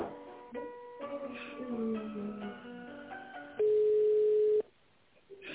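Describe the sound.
A steady telephone line tone sounds for about a second while a call is transferred to a company's tender department. It is loud, flat and unbroken, and a short run of melodic tones comes before it.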